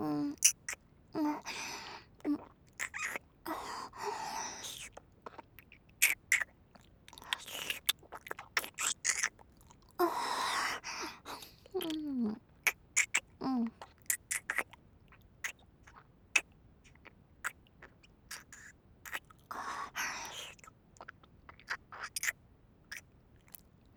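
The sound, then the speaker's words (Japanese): Deep kissing: irregular wet smacking, sucking and slurping mouth sounds, mostly faint, come in many short bursts and clusters with quiet gaps between them. “先生キスうまいじゃん。”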